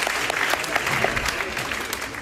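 An applause sound effect plays for a young girl's sixth birthday, a lively, dense patter of many clapping hands at an even level, tapering slightly toward the end.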